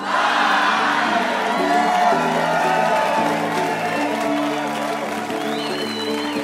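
A crowd cheers, whoops and applauds at a live radio show held at the Museum of Commerce in historic Pensacola, Florida. The noise stays loud and continuous throughout.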